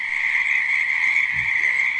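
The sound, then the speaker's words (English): Frogs croaking in a steady, continuous chorus of high, buzzing trills that stays even in loudness throughout. “They also made frogs come up on the land of Egypt.”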